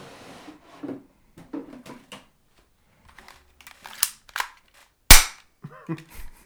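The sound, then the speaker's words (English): Unloaded airsoft pellet gun is racked and its trigger pulled, giving a few sharp mechanical clacks, the loudest a crisp snap near the end, among quieter handling clicks and brief talk. “Oh, it's not even loaded. I'm screwed. Well, I'm glad you shucked it and pulled the trigger before checking.”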